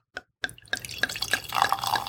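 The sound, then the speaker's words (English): Pouring a golden, mead-like drink into a crystal glass: one soft tap, then a steady splashing pour with drips that grows fuller and brighter toward the end. “So I'm going to go ahead and pour this, a little bit of this in here, into the glass.”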